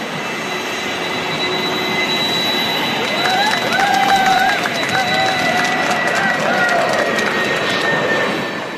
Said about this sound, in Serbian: posle sletanja ljudi tapšu, a ovde sad je bilo tapšanje posle poletanja kad sam poleteo